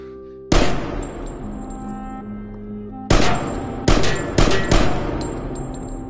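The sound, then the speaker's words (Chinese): Pistol gunshots in the Korean crime film New World: five sharp cracks, one early and then four in quick succession a few seconds later, over sustained musical tones. “赶紧抢来手枪，将其先打死。”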